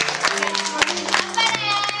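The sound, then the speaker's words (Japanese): Supporters cheer with several voices for two third-year students from a girls' junior high school in a studio, a steady, dense burst of shouting and calling that lasts throughout. “頑張れ いいです、声援が飛んでいます。”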